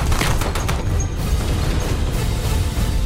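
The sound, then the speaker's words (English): Gunfire from a rooftop firefight with rifles: a quick cluster of sharp cracks in the first second over a loud, unbroken roar of noise that continues to the end. “My bullet left the rifle just as he aimed at Saul”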